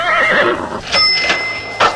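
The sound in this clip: A horse whinnies in one long, loud, wavering neigh, followed by a few sharp hoof-like knocks.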